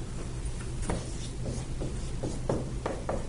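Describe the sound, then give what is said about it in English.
Drawing on a board makes a series of short, scratchy strokes that come in irregular bursts over a steady background hiss. “I'm drawing a baby on the board,”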